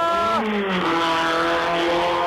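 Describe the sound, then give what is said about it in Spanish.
A rally race car speeding past on a stage, its loud engine whine dropping sharply in pitch as it goes by, then settling into a lower, steady droning roar. “A toda velocidad, Bolivia sigue avanzando. Y hay nuevo coche en el Tejar, señoras y señores.”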